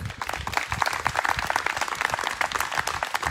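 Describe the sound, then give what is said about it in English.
Applause from a church audience honouring college graduates, a dense, steady patter of many hands clapping at moderate level throughout, without talk. “Now on to our college grads. How about a little hand for them?”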